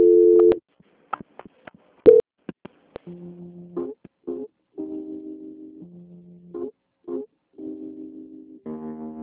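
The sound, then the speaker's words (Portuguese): Telephone line tones sound during a call transfer. Short clicks and beeps come first, then a run of steady electronic tones alternating between two pitches, separated by brief gaps. No one speaks. “A linha vai ficar mudando num instante, tá? E o controle de qualidade vai puxar sua ligação. Tá ok. Transferência.”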